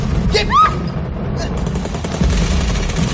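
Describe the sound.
Recorded gunshot and explosion sound effects played back from a recorder during a stage rehearsal. A steady crackling, rumbling wash of rapid gunfire carries throughout, with brief whistling sweeps near the start.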